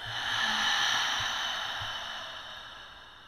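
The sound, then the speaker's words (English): A deep breath in and out, heard as a single slow, airy hiss that swells early and then gradually fades away, with no talking. “Let's take in some prana. Let's take a breath in and out.”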